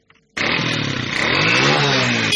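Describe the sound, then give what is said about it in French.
A motorcycle taxi engine on a city street in Kinshasa cuts in abruptly after a brief quiet moment, then holds a loud, steady, buzzing drone with a slightly wavering pitch. “Sur l'avenue Kulumba au quartier Kingabwa-Izam dans la commune de Limité, hommes et femmes utilisent le taxi-moto comme moyen de transport.”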